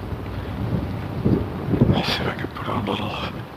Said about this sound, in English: I just made the turn north. The wind is blowing on my face.